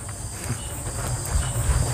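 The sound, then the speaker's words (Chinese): Cicadas by a pond under a banyan tree in summer make a continuous, high-pitched shrill drone with a low, uneven rumble beneath it, and no pauses. “这个场景是第一次我体会到池塘边的榕树下， 知了在声声叫着夏天”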